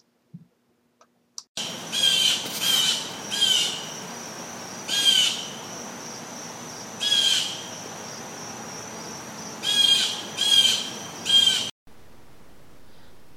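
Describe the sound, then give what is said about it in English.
Morning birdsong: many short, bright chirping phrases come in bursts over a steady, hissing insect-like drone, with no voices. “Perhaps you'd like to listen to the birds singing in the morning and see how much better you feel.”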